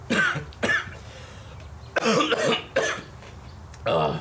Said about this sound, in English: He kind of just like gives a little cough.